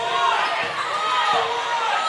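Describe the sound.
A basketball is dribbled on a court during a game between the Carroll Tigers and Brown City, with a few soft bounces under steady crowd noise and a commentator's voice.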